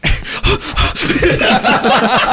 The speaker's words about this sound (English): Heavy breathing.